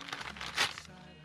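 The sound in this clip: A package is torn open along its tear strip, giving one brief, faint crinkly rip in the middle, with a low hum and quiet background before and after.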